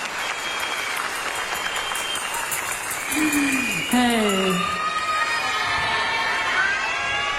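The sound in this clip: Audience applause for two Canadian dancers at a live show, steady clapping with some cheering throughout, and a voice speaking over it midway.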